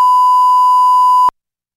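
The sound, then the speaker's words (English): A censor bleep masking a word: one steady, high-pitched tone lasting just over a second, cut off abruptly and followed by silence. “We'll reveal what's behind the beep at 848.”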